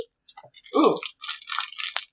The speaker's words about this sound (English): It's like crinkles.